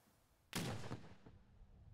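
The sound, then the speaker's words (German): A cannon shot booms over the Dömitz fortress during a festival of Low German language and culture. It is one sudden, loud, broad blast that breaks a quiet background and then rumbles away over about a second. “Kanonendonner über der Festung Dömitz.”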